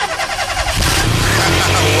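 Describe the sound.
A car engine starts up after the bonnet is opened. Rough, choppy cranking suddenly catches and becomes a loud, steady running rumble that holds to the end.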